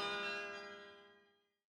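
A single church bell tone rings out, rich with layered harmonic overtones, and slowly decays until it fades into silence after about a second and a half.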